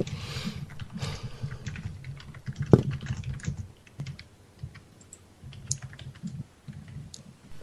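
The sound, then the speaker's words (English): Rapid typing on a computer keyboard: many quick, irregular clicks and taps in a steady stream, with one sharper, louder keystroke near the middle and softer, sparser pecking toward the end. “I'm typing this into the thing.”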